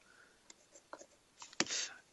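A pen scratches on memo paper: faint short strokes and taps, then a longer, slightly louder scribble near the end.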